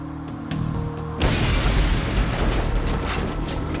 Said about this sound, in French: L'explosion fut dévastatrice.